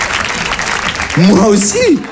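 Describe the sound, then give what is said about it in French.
Audience applause, a brief wash of clapping that a voice rises over during the second half. “Ils applaudissent, bah oui.”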